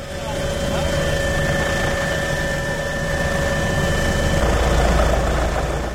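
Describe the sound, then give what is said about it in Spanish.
A Guardia Civil helicopter flies over a volcanic eruption on El Hierro, giving a steady, loud engine drone with a deep low rumble and sustained whining tones that hold level throughout and swell slightly toward the end. “helicóptero que escuchan, pues podría ser el sonido de un rescate en alta montaña, podría ser el sonido de una operación antidroga o un operativo de vigilancia”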